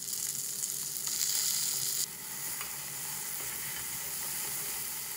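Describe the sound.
Root vegetables fry with tomato paste in a pan while browning for a roulade sauce, giving a steady, loud sizzle and crackle throughout that is slightly brighter in the first two seconds, with no voices.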